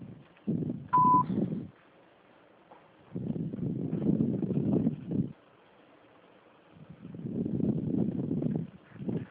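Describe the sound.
A voicemail system's beep before recording a message: one short, steady high-pitched tone near the start, between stretches of muffled, low-pitched sound.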